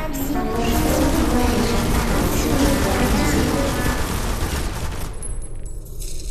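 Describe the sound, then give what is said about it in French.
Automatic turrets firing in a video game: a dense, sustained rattle of rapid gunfire that runs almost without a break for about five seconds, then thins out toward the end. “Prenons comme exemple les 10 000 tourelles automatiques en face de vous.”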